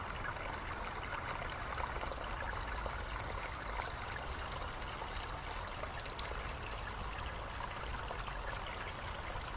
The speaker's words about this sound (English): There's something so relaxing about listening to water running like this.